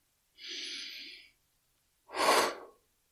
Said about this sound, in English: take a nice, deep, cleansing breath to close the meditation. Inhale and exhale.